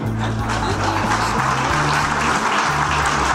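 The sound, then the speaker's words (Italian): Audience applause welcoming the Italian prime minister at his debut at the Villa d'Este forum: a continuous wash of many hands clapping at an even, loud level throughout. “No, era detto perché poi potete fare un applauso, no?”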